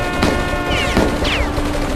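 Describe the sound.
A volley of gunfire from soldiers opening fire on advancing British troops and an armoured vehicle: a few sharp, loud bursts of shots with whistling streaks between them, over steady background noise.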